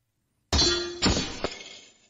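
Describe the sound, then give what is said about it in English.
Shields clashing in a fantasy battle within a role-playing game: a sharp metallic clang rings out, followed by a second strike and a lighter third hit, the ringing fading slowly between them. “Shield bashes shield. The sound of the two attacks striking together sends a small shockwave out that ripples the leaves of the nearby bushes.”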